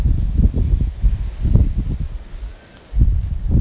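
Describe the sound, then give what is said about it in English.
Gusty, mild outdoor wind while socks are taken off a washing line, low buffeting rumbles that ease briefly before picking up again. “You can probably hear a bit of wind. It's become much milder. The wind has become more milder.”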